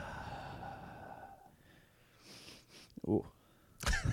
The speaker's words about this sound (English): We should just breathe in the mics for a little bit to get the levels right.